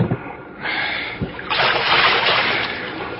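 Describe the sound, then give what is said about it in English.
Wooden paddle splashing water as a boat is rowed across a bay, a wash of splashy bursts building into a sustained rush of churned water, with a soft low thump in between. “One more sound from that paddle and I will shoot.”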